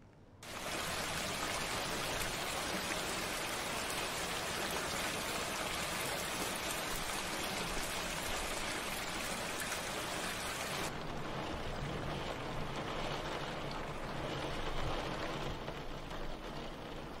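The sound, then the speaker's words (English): Rain falls outside as a continuous, dense hiss that holds steady for the whole stretch, with the texture softening slightly in the latter part and no talk over it. “It's raining outside.”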